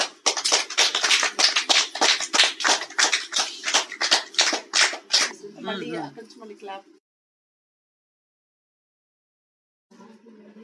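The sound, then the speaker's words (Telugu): Children clap together in a steady, even rhythm, with many unison claps over about five seconds. Brief voices follow, then quiet, then a voice starts speaking. “Okay, let's clap each other.”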